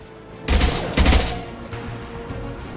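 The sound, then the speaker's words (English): Rockets fired in a video game: two heavy blasts in quick succession, followed by a fading rumble and lighter crackling. “They're shooting rockets at us.”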